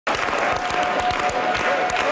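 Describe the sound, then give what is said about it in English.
Scattered applause from a crowd at a Parti Québécois election-night rally for Quebec's Premier-designate: dense, steady clapping with sharp individual claps standing out, loud and continuous throughout. “Scattered clapping turned into a unified chant for Quebec Premier-designate Paul St-Pierre Plamondon.”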